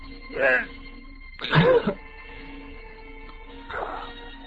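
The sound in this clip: A person chokes and gasps for breath: three strained throat bursts, coughing and rasping, separated by tense pauses, with the middle one the loudest and the last one weaker.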